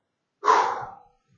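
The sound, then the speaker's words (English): A person takes one deep, breathy inhale-exhale. It is a single airy whoosh lasting just over half a second, starting abruptly and tapering off, alone with no talk around it. “Sit up straight so you get a good deep breath.”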